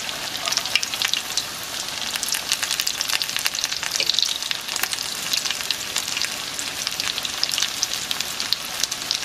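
A potato mixture fries in hot oil, giving a dense, steady crackling sizzle with constant fine pops throughout and no talking.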